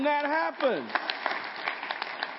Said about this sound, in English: Now would be a good time to clap.